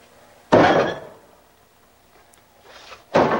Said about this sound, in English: Tossing a dish towel into the sink, he goes to the cupboard and swings open the door.